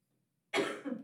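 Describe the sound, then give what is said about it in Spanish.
A woman's single cough: one short, harsh, breathy burst that breaks out of silence and fades quickly, with no talk around it. “No, ella solo tose.”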